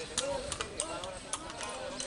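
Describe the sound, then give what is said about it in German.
A donkey carrying a rider clip-clops over original cobblestones in the colonial centre of Trinidad, Cuba, on a Sunday morning, giving a steady run of light hoof clacks, faint beneath a talking voice. “Ein einsamer Reiter ist unterwegs an diesem Sonntagmorgen im Zentrum der Stadt. Ein Mann auf einem Esel.”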